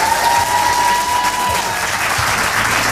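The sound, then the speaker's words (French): A live audience applauds a band as it takes the stage, with dense, steady clapping at an even, loud level throughout and a faint sustained tone audible underneath. “On les applaudit évidemment.”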